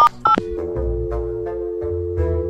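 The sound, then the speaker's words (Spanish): A telephone number is dialed, a couple of short keypad tones followed by a steady electronic phone tone holding at one pitch, clear and alone. “Pues márcale, te va a contar. Todavía le tenemos que marcar.”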